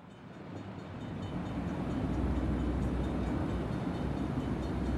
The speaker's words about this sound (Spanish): Estás en el interior de un tren.